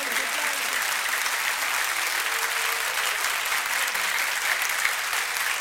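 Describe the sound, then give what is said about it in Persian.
Audience clapping in honour of Ali, a dense, continuous wash of many hands applauding at a steady, even level for the whole stretch, with a faint voice underneath. “اگر که محترمم من به احترام علی، کف جانانه بزن.”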